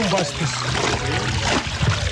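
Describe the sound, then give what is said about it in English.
Liquid sloshes and trickles as tannery workers soak goat, sheep, alligator and snake leather in a mixture of ash, salt and dung. The watery noise is steady and continuous beneath a talking voice. “Sounds of workers soaking the leather in a liquid mixture of ash, sodium chloride, and dung fill the neighborhood.”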